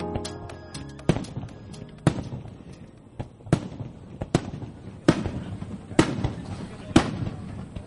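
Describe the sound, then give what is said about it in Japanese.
Fireworks launched and bursting at a fireworks festival: a steady series of sharp, booming bangs roughly once a second, with crackling, rumbling trails between them and a dense flurry of small pops at the start. “今ですね、花火大会会場ではもうね、この花火が打ち上がっている真っ最中なんですけれども”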